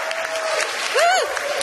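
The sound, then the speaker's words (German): Audience at a Lesebühne reading event applauding: an even wash of clapping, with a brief whoop rising and falling near the middle. “Kann man mal Applaus machen?”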